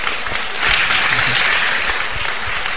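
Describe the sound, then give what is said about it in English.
Audience clapping during a question session at a Christian talk: a full, steady burst of many hands applauding for about three seconds, loud and even throughout, with no one speaking over it. “You should clap for me. I've given a good answer.”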